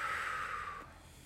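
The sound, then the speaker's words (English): A slow, deep breath taken during a guided scripture meditation: a soft, airy rush of breath that gradually fades over about a second. “So, you know, you take a deep breath in and out.”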